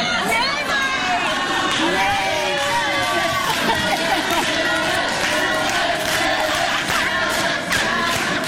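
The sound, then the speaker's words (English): A live audience chanting: many voices merged into a loud, dense, continuous roar of crowd chant that stays at an even, high level throughout. “As you guys are chanting”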